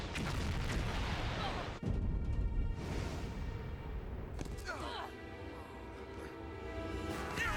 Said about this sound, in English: Uh-oh, see, I told you they were grenades!